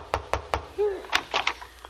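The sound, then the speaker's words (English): Three sharp knocks on a front door in quick, even succession, followed by brief voice sounds. “Well, Costello, here's the first place that advertised for a babysitter. Go ahead, knock on the door.”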